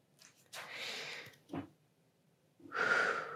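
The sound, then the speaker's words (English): A deep breath taken in and out during a guided breathing exercise: a long, soft breathy inhale, a brief sharp puff, then a louder, rushing exhale, with no talk. “And take a breath.”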